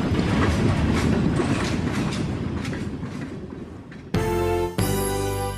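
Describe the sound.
A train rolls along with a continuous rumbling clickety-clack, then a steady tonal sound abruptly takes over near the end.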